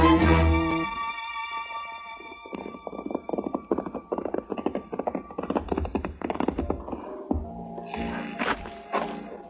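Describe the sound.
Horses' hooves clip-clop as riders set off on horseback. A long, steady run of many hoofbeats follows a sustained musical tone at the start.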